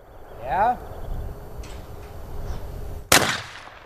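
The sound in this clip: A single sharp gunshot cracks out near the end during hunters' shooting practice, loud and abrupt with a short ringing decay after quieter background sound.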